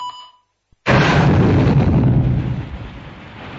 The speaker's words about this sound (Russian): Взрыв был оглушающим. Стены содрогнулись.